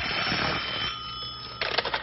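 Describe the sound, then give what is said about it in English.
A telephone rings with a bright, sustained, buzzing tone that cuts off abruptly and gives way to a brief burst of rapid, rattling clatter. “Phone's ringing.”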